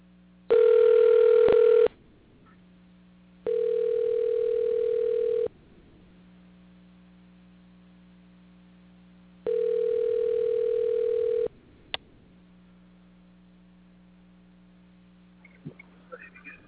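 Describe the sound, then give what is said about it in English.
Electronic telephone tones sound while a call is dialed: three long steady bursts in a regular on-off ringing rhythm over a constant low hum, followed by a sharp click and a few faint scattered noises near the end. “we're trying to dial him right now, and hopefully we'll have some success in getting him on the program.”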